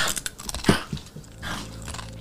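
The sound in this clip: Someone bites and chews food right into a microphone: crisp, crunchy bites followed by wet, close chewing and crackling, loud and intimate, with no talk.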